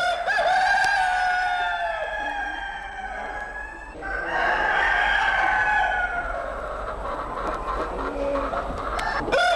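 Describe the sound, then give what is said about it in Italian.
Roosters crowing: long, loud, strongly harmonic crows follow one another almost without a break, their drawn-out calls overlapping and filling the whole stretch. “Allora, i nostri galli o galletti hanno fatto sentire la loro voce.”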